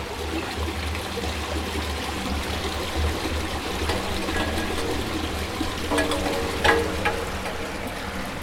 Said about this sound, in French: on mesure des débits d'eau ici dans cet égout